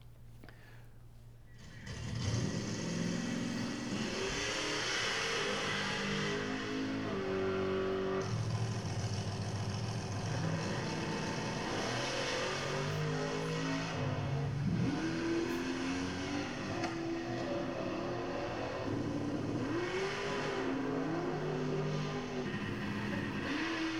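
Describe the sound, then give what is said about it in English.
Drag racing cars with nitrous oxide being pumped into them rev hard, their loud engine note repeatedly climbing and dropping in pitch in a continuous, roaring stream of throttle bursts. “here's some examples of nitrous oxide getting pumped into some drag racing vehicles.”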